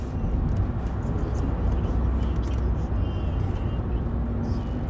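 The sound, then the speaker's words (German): Car driving on the motorway near Hägendorf and through a motorway underpass, a continuous loud low rumble of engine and road noise with a constant hiss and no talking. “ich bin jetzt auf dem Heimweg von Hegendorf. Es passt irgendwie perfekt. Ich fahre bei einer Autobahnunterführung durch.”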